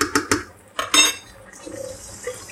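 A metal lid clatters onto a pot of Thai red curry sauce in a few sharp clinks and clanks within the first second, followed by quieter, fainter kitchen noise.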